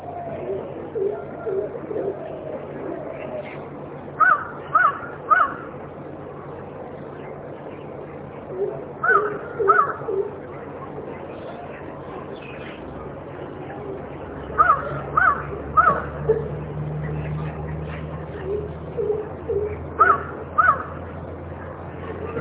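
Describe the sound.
Crows cawing in short bursts of three or four harsh calls, the bursts repeating several times with pauses between them, over a steady low background hum.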